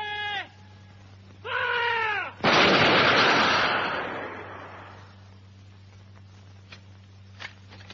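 A massed rifle volley fired at charging attackers in battle: one loud, dense crash of shots that rolls and fades over about two seconds. Two drawn-out shouted calls come before it, and a few faint sharp cracks follow.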